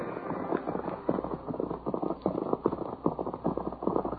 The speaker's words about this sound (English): Miles to the east, two men rode through the night.